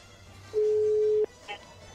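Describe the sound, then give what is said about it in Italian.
A phone call connects with a single steady electronic tone lasting under a second, followed by a short, faint blip. “Chiamata, una chiamata soltanto.”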